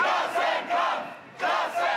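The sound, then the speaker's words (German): A crowd of several thousand protesters chants loudly at a trade union demonstration against cuts to pensions, health care and labour. The shouting comes in three rhythmic surges. “Gut 5000 sind es laut Veranstalter, die heute allein in der Landeshauptstadt demonstrieren.”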